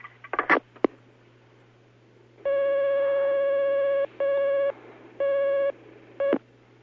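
Telephone line tones as a call comes in on the line: a few sharp clicks, then one long steady buzzing tone followed by three shorter bursts of the same tone, over a low constant hum.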